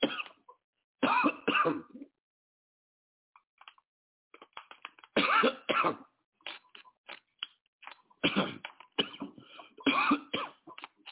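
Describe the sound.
A man coughs and clears his throat, which has gone dry from talking and reading aloud. Several rough, gravelly bursts come in uneven clusters, with quiet gaps and softer clicks between them.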